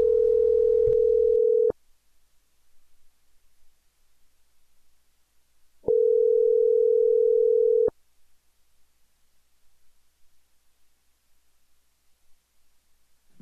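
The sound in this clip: Telephone tone on a call being placed to return someone's call: two steady, loud, mid-pitched tones of about two seconds each, separated by a long silent gap over faint line noise.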